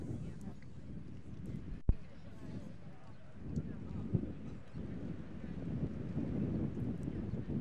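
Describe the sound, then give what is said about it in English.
Wind blowing across an outdoor baseball park during a game, a low, steady rumbling buffet that swells and eases throughout, broken by a sharp click early on and a fainter knock later. “Wind picks up again.”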